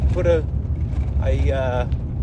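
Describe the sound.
Inside a Toyota car while driving: a low, steady engine and road rumble runs continuously beneath people talking.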